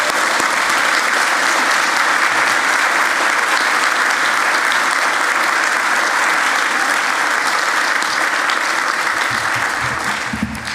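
Applause for graduates at a Baptist church service: steady, dense clapping from an audience fills the whole stretch without a break, thinning slightly at the very end.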